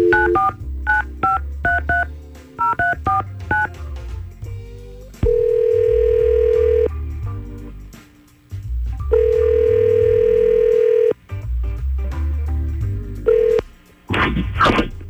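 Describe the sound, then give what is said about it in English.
Touch-tone keypad beeps as a morning radio show dials a listener: quick groups of short dialing tones, then several long, steady phone-line tones separated by brief gaps, ending in a burst of noise. “we're going to try to call Nathan right now and see what's going on.”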